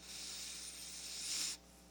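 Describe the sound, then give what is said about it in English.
A slow, deep breath drawn in to close a yoga practice, a steady airy hiss that swells toward the end and then cuts off abruptly, with no talking. “let's take one breath together to close. We'll inhale”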